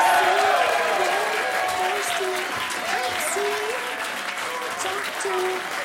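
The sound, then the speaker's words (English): Studio audience applauding a guest being welcomed onto a chat show: sustained, loud clapping that eases slightly over time, with voices talking over it throughout. “Can you please welcome with Ross Noble, everyone?”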